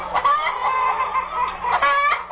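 A rain-soaked hen clucking in a steady run of nasal, harmonic calls, with a louder, sharper burst of clucks near the end.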